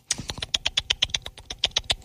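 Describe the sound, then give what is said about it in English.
Rapid typing on a computer keyboard: a quick, fairly even run of many crisp key clicks, quiet and without talk. “I just got to do a little digging here. Let me just type a couple things here.”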